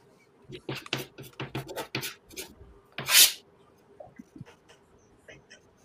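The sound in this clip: Dry erase marker writing on a whiteboard: many short rubbing, squeaking strokes in an irregular rhythm, with one louder, high squeak partway through and quieter strokes after it.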